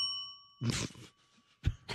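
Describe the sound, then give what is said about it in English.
A bell ding sound effect, one bright tone with ringing overtones at the start that fades, followed by a couple of short noisy bursts. “Can I get a bell?”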